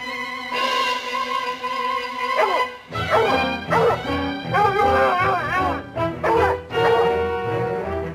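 A hound dog barking and yipping in a rapid run of high, tonal yelps and whining cries, loud and insistent, with short gaps between clusters.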